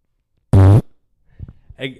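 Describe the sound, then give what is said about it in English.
A loud, tonal fart lasts about a quarter second with a low buzzing pitch. Quieter, speech-like sounds follow. “I fart. Oh my God. I fart. And this is not just like any fart.”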